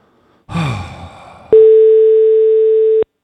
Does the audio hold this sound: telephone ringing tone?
yes